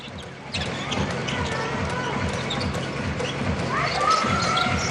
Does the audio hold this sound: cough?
no